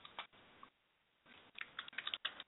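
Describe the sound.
Quiet typing on a computer keyboard: a run of soft keystrokes, a short pause, then a faster, slightly louder flurry of clicks.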